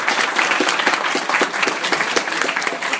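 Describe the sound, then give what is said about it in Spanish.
Audience applause for two hosts at a live comics talk event: dense, steady clapping from a crowd that holds at an even loudness for about three seconds, with no talking over it. “Fuerte aplauso para ambos, por favor.”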